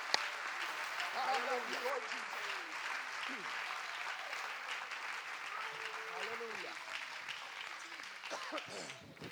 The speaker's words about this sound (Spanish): Come on, somebody put your hands together and give him praise. Alguien dele un aplauso al Señor y dele alabanza.